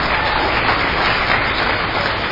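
An audience at a traditional dance performance gives loud, sustained applause. The clapping is a thick, uniform roar that stays level throughout.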